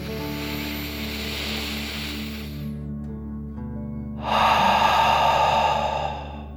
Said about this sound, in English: Deep breath, in and out.